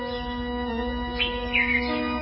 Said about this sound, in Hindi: सुबह हुई है पक्षियों की गिलहोल, ये भी प्राकृतिक साउंड संगीत